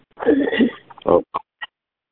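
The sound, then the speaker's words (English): A person who has done little talking that day clears the throat with a low, rough rasp, followed by a shorter grunt and two faint clicks. “No, I was just clearing my throat.”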